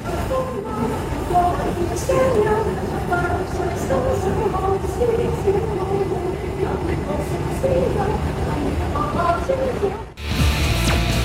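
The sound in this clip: London train station platform ambience: a steady, fairly loud rumble of rail noise runs throughout, with a murmur of voices over it, before the sound cuts abruptly near the end.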